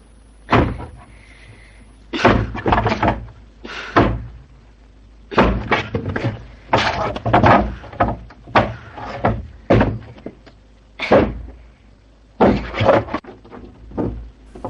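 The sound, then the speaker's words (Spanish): A hoe breaks apart wooden boards nailed across a door in a rural setting, making many heavy, irregular wooden thuds and cracks, some in quick clusters and others spaced apart, with no voices. “la niña rompe con una azada los maderos que bloquean la puerta del pozal de la culebra.”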